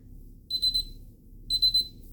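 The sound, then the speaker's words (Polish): Completion alarm of a Tefal i-Companion XL cooking robot: two short bursts of high electronic beeps, each a quick triple pulse, about a second apart, over a faint low background hum. “Za około 7 sekund krok będzie wykonany. Usłyszymy stosowny alarm.”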